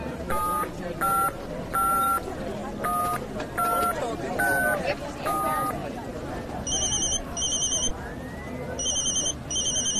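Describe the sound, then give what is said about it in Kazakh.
A mobile phone rings with an electronic ringtone of repeated short beeping tones: first a run of evenly spaced mid-pitched beeps, then quicker, higher warbling bursts in pairs, loud and clear. “Я ата, сіздің телефоныңыз не сап-сау бұзылмапты ғой, сайрап тұр, шақырып тұр.”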